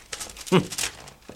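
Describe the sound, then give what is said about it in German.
Paper envelope being handled and opened, with soft crinkling and rustling in short bursts and a brief voice partway through. “Hier, dieser Umschlag lag vorhin vor der Wohnwagentür. Hier, wirf mal einen Blick rein.”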